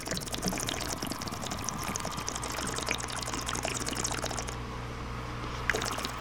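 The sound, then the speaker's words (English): Water bubbles inside a bong as someone smokes, a continuous dense gurgle that stays fairly quiet and even for about six seconds, with no talking. “Bong rips.”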